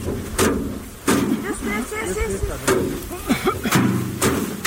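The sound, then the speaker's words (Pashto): Farmers in Dand district, Kandahar, beating harvested basil to separate it from the plants: dull thumps, about five, at an uneven rhythm under steady talk. “د کندهار په ډن ولسوالۍ کې کاروندګر خپل راټول سوي د ریحان او حاصلات ټکوي ترڅو ریحان له بوټو جلا کړي.”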